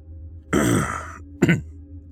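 A man clears his throat twice, first with a longer rasping rumble, then after a brief pause with a short, sharp second clearing, both alone against quiet.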